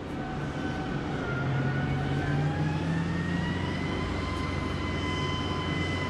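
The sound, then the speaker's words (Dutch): Armoured vehicle rolling off a ship's gangway: a continuous heavy engine rumble and drone, with faint tonal whines slowly rising in pitch, steady throughout without pauses. “Wat je hoorde was het geluid van een panzervoertuig dat van de loopplank afrolt.”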